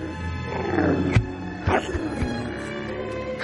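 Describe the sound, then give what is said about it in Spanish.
A frightened tiger retreats into the jungle at sunset, giving short snarling growls, with a few sharp bursts standing out over a continuous rumbling backdrop. “El sol se va, el tigre se para y vuelve asustado a la selva.”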